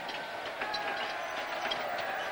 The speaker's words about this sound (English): As the train slows and pulls into a station, thousands swarm the platform, waving small red flags.